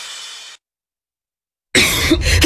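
A person coughs in short, harsh bursts: a brief breathy one first, then, after a pause of about a second, a louder cough that breaks into two quick bursts.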